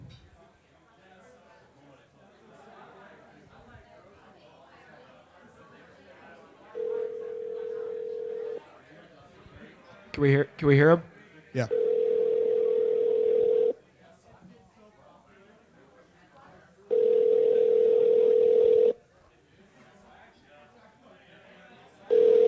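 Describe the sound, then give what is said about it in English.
A telephone ringback tone sounds while a call is placed: three long, steady, mid-pitched tones with pauses between, preceded by brief warbling electronic beeps, while people talk around them. “All right, we're going to call JP right now.”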